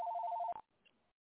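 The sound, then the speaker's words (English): A telephone rings in a studio: one short, quiet, warbling electronic ring that is cut off abruptly, leaving a moment of faint residual noise. “And, you know, they're calling this time of night in the studio.”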